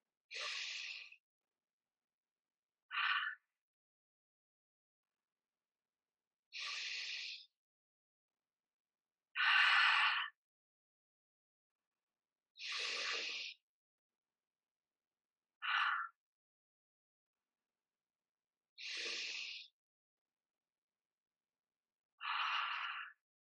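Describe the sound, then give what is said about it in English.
Eight deep breaths taken slowly one after another, each a soft, airy rush of breath separated by silence, some longer and fuller, others shorter and sharper, with no talking. “And let's take 5 deep breaths together.”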